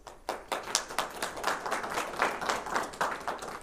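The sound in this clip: A small audience at a library talk gives a round of applause, distinct individual claps pattering in an uneven rhythm at moderate volume without dying away.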